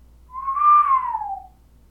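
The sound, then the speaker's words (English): One long, low human whistle sounds alone. It swells in gently, rises slightly, then slides downward in pitch before fading after about a second. “whistled a long, low whistle”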